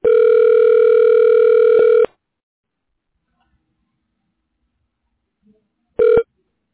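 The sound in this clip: A telephone line tone plays while a call is transferred: a steady, loud, buzzing tone holds for about two seconds, then the line falls silent before the same tone returns in one short burst.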